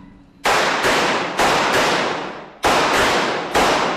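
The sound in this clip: Handgun shots crack out at a shooting range during a defensive drill. Many sharp, loud reports come in quick, uneven bursts, each with a short decaying tail.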